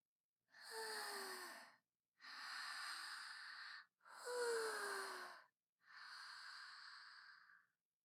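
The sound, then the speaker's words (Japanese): Four slow, deep breaths taken to calm nerves. Each is long and airy, with short silent pauses between them, soft and heard alone. “ちょっと待ってください。深呼吸しますから。”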